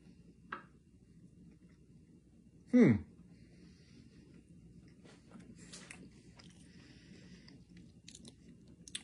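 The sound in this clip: Someone takes a single crisp bite of an Alpha plant-based burger, followed by faint, sparse chewing against quiet background noise.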